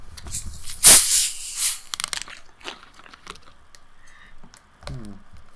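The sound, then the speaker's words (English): Sharp crack and fizzing hiss of a sugar-free strawberry drink can being opened: one loud pop followed by a brief bright hiss that fades, then faint small sounds. “And as you know, there's no sugar in this. Yeah, so I'm just confused, but excited. All right. So, are you ready to crack it open? 3, 2, 1.”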